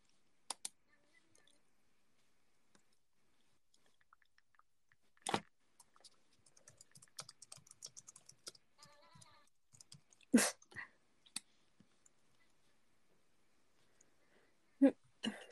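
Someone quietly eats a muffin, making faint, moist chewing and mouth clicks in scattered clusters. A few sharper, louder smacks stand out among the soft munching, with long near-silent gaps between bursts.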